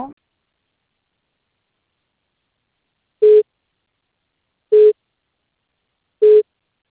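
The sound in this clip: Telephone busy tone sounds as three short, identical mid-pitched beeps, evenly spaced about a second and a half apart with silence between them.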